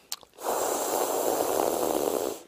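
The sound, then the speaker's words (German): A long, steady hissing inhale is drawn in over a tongue rolled lengthwise as a yogic breathing exercise. It follows a brief click and continues alone for about two seconds before fading. “Also die Zunge längs rollen und dann über die Zunge einatmen.”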